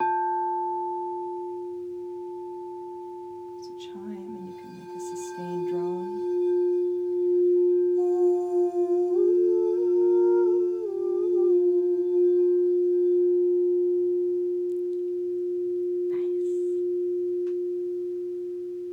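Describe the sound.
A crystal resonating instrument rings with one pure, direct tone and a faint higher overtone, held steady for about nineteen seconds, while a voice briefly sounds over it midway.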